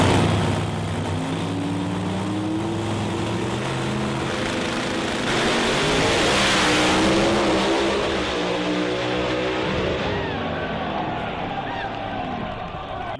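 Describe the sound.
A drag racing car launches from the start line, its tyre leaving the line amid a loud, sustained engine roar that holds steady for several seconds, swells briefly near the middle, then eases slightly toward the end.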